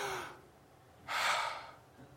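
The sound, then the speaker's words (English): An audience takes a deep breath together: a soft airy inhale, a pause, then a fuller rush of breath, all faint. “We got something to praise God for because we just took a breath and God gave us that breath to fill our lungs with.”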